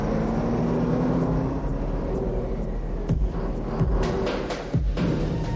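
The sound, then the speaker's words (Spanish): Steady low engine rumble and road noise from a prison bus driving along icy roads at night, continuous throughout, with a few faint thumps near the end. “Inicia su marcha a través de las heladas carreteras. La noche cae y el autobús continúa por un oscuro camino.”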